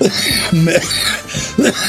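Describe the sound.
Coughing comes in a few rough, throaty bursts, loud and close, mixed with voiced, hoarse sounds between them.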